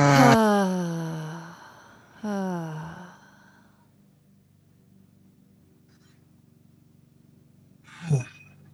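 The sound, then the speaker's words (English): Voiced 'ha' exhalations during a guided breathing exercise, two audible sighing breaths with falling pitch, then a long quiet stretch and a short breathy sound near the end. “We're going to exhale with the sound of ha. So big breath in. Ha.”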